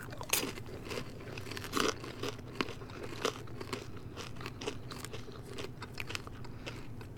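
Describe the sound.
Crunching and chewing of chunky snack hunks seasoned with Old Bay and tasting of caramel: many irregular crisp crunches and wet chewing sounds continue steadily with no talking.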